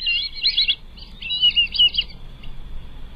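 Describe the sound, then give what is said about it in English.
Black-bellied whistling duck calling: a run of high, thin squeaky whistles in quick clustered bursts, moderately loud above a soft low background murmur. “that would be your black-bellied whistling duck”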